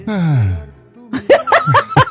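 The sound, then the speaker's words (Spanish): A deep breath let out through the mouth as a voiced, sighing exhale that slides down in pitch and fades, followed after a short pause by a few quick, chuckle-like voiced bursts. “ahora vamos a respirar profundamente y a exhalar por la boca.”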